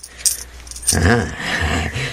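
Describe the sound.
Coins jingle as they are handed over to a robber in a holdup: a couple of brief metallic clinks, followed by a man speaking.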